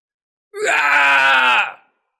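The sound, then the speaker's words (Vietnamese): A man screams loudly in a frenzy, one sustained, strained, high cry lasting just over a second, starting abruptly and ending with a quick fall-off. “Tên này hét lớn, tóc tai bù xù như lâm vào điên cuồng.”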